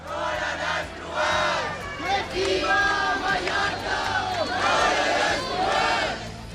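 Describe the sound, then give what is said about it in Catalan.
Crowd at a Sunday late-afternoon protest against mass tourism in central Palma, Mallorca: a loud, dense mass of voices with shouting and chanting that rises and falls in waves and runs continuously throughout. “I aquest que sentiu és l'ambient que hi havia aquest diumenge a hora baixa al centre de Palma durant la manifestació contra la massificació turística i sota el lema Mallorca al límit.”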